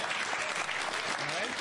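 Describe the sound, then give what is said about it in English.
Audience applause at a political rally, a dense, even clapping that holds steady for the whole clip with voices mixed in. “Round of applause.”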